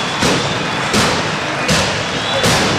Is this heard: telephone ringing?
no